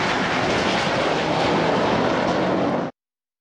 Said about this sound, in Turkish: Girne kenti semalarında F-16 savaş uçağıyla akrobasi gösterisi sergileyen Solo Türk, vatandaşların beğenisini topladı.